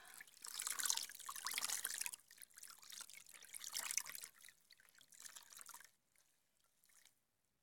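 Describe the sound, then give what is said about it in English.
Running water while a child's legs are washed: a soft, continuous splashing and trickling with uneven surges that thins out and fades near the end. No one speaks. “Mommy's just gonna wash you. Okay, now I'm gonna wash your legs.”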